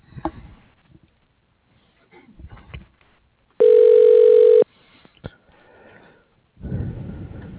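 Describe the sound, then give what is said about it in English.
A telephone call is transferred to voicemail: quiet line clicks and noise lead into a single loud, steady tone lasting about a second, then more clicks and a closing burst of noise. “I'll put you in his voicemail, and then you can leave him a message”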